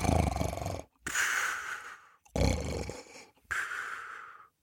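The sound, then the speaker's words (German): Snoring and blowing breaths from a sleeping man in a fairy tale: four loud, rough, breathy bursts in a steady rhythm, each lasting about a second and separated by short silent gaps. “Es dauerte nicht lange, so schlummerte er ein, blies und schnarchte.”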